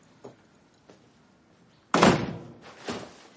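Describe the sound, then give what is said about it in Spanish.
A door being closed behind a woman as she leaves: two faint taps, then a loud, sharp thud at about two seconds with a decaying tail, followed by a softer knock. “él cierra la puerta tras ella”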